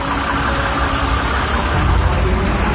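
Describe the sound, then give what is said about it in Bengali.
A bus engine rumbles as the bus pulls into a busy bus stand in the evening, a steady mid-low growl that swells slightly toward the end. “বাস স্ট্যান্ডে যথারীতি লোকজনের অভাব নেই, একটু পরেই বাস চলে আসে।”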